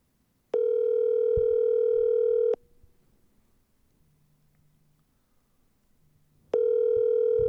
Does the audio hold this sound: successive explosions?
no

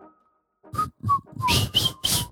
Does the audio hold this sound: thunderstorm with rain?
no

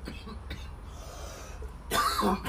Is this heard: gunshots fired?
no

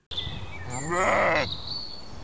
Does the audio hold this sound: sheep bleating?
yes

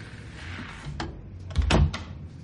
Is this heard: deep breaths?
no

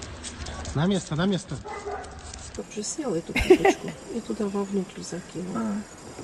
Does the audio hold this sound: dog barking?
yes

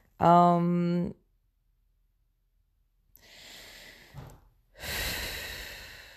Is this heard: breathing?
yes

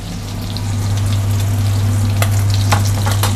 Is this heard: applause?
no

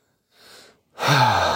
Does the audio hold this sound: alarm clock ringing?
no

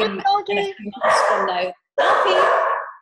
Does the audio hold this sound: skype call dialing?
no

